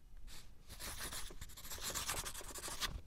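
A pen scratches across paper while signing a document, producing faint, continuous rough strokes that rise and fall in short bursts.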